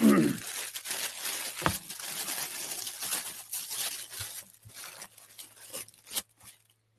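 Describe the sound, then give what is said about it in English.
Tissue paper crinkling and rustling as a package holding a fishing shirt and lures is unwrapped. Bursts of crackle come irregularly, with a few sharper tears, and thin out toward the end. “But this is the tissue paper.”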